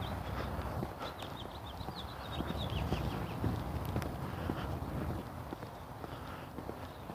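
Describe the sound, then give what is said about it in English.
Footsteps of a person walking outdoors, a steady run of soft scuffing steps over constant background noise. “And I'm just walking and blathering and walking.”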